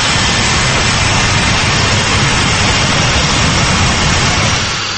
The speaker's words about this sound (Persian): این هواپیمای بوئینگ از فرودگاه دوشنبه به سمت روسیه پرواز دارد